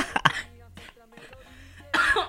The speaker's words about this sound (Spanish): Sí, me dio la tos.